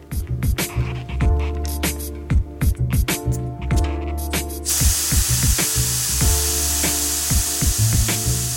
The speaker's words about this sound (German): Als erstes lassen Sie am Ventil die Luft aus dem Reifen.